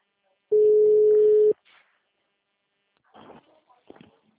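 A single steady telephone tone from a call back to a customer holds for about one second, then cuts off, followed by a few faint soft rustles.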